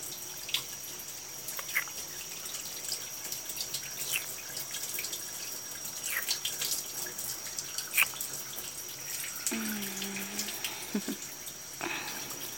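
Water splashes gently as someone's back is washed, faint irregular trickles, drips and light splashes spread across a quiet stretch.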